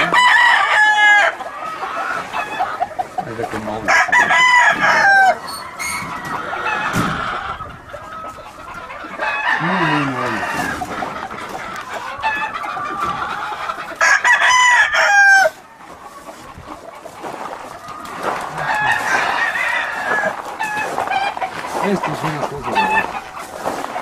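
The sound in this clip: Healthy, lively roosters crow again and again amid clucking fowl. The loud, overlapping calls ride over a steady flock background while people talk throughout.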